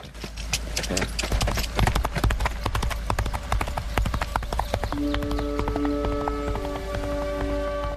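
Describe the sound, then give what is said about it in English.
A horse gallops down a road with rapid, irregular clip-clop hoofbeats that keep up a steady drive throughout. A sustained tonal sound joins in during the later part. “Nolan's eyes are reflected in his rearview mirror as he watches Channing gallop off down the road on Stripes.”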